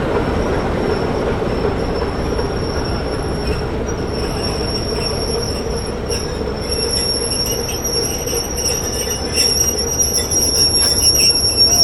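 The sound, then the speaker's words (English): Steady rumble from diesel locomotive D5061 as it prepares to depart, with a dense low roar and thin high-pitched squealing tones running throughout at an even, loud level, with no talk. “So the diesel loco, diesel 5061, is just about to depart”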